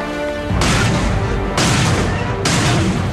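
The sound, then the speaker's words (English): Three heavy cannon blasts from a row of cannons fired on a military base in a film, each a loud booming hit with a rumbling tail, spaced roughly a second apart. “Now on the military base, soldiers light fuses, setting off a row of cannons.”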